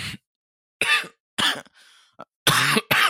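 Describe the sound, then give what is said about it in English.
A sick person coughs in several harsh, loud bursts separated by short silences, with a faint throat-clearing sound between them. “Still coughing up a storm for no reason.”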